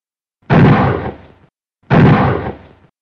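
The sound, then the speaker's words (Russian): Rifle fire aimed at a metal target: two loud, sharp blasts, each followed by a decaying tail of about a second, with a clear gap between them. “Громкий и резкий выстрел из винтовки с металлическим стоном поврежденной мишени решительно разорвал в клочья почудившийся мир и покой.”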